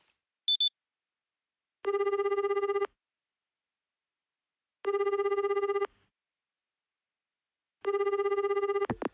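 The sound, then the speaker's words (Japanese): Telephone ringback tone on a call to a private home: three long, evenly spaced rings of about one second each, steady and mid-pitched, with a short beep before the first and a brief burst of noise at the end. “昨日電話取材という形で木村記者のご自宅に連絡してみました。”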